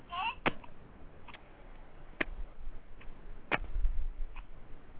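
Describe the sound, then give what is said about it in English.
Hollow knocks of a hand tapping on a watermelon: a few short, dry taps at an uneven pace, fairly faint over a low background rumble. “put your ear on the watermelon, and if you shot it like this”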